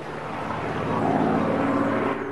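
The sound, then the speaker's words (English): A low-flying single-engine aircraft drones overhead in a steady, broad roar that swells slightly partway through and then holds, with no voices over it. “They all look up at the low-flying aircraft.”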